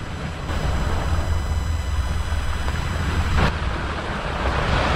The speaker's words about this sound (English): Oh, here come some waves now.